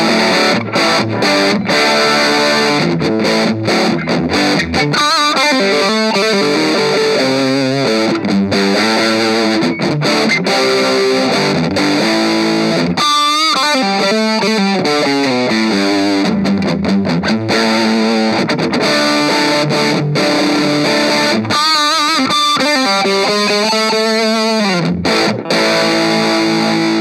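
Overdriven electric guitar through an Orange Crush 20RT amp, cranked loud with the mids boosted, bass turned down and treble cut. Loud, saturated chords and ringing lead lines play continuously with no talking.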